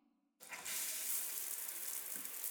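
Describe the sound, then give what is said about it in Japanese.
Running water rinses hair before conditioner goes on: a steady, broad hiss that starts abruptly after a brief quiet moment and continues evenly to the end. “じゃあ、一回流して、その後、リンスつけていきますね。”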